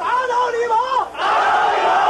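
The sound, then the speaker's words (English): Protest crowd in Beijing chanting defiantly against the Chinese government: many voices shout a loud, rhythmic chant, break for a brief moment, then surge back in unison. “Defiantly they chant, "Down with the Chinese government."”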